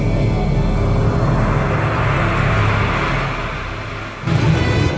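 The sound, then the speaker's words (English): A loud, sustained engine-like roar from the Star Trek III: The Search for Spock movie trailer, easing down briefly near the end before surging back. “My number four involves voyages of some kind on a ship of some sort. I don't fucking know. I'd play the trailer.”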